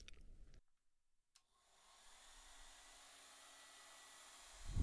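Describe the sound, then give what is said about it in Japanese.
A hair dryer blows on hair that has been towel-dried and oiled. After a short silence it starts into a steady, hissing whir that holds constant and swells louder at the very end. “椅子に座って、タオルで水気をオフして、少しオイル塗ってから乾かすね。”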